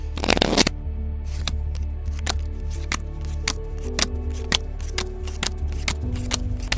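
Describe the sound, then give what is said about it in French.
Real playing cards are shuffled in a dense rustling burst at the start, followed by scattered sharp clicks and snaps of cards over a steady low hum. “Je peux même le faire avec des vraies cartes, si tu veux.”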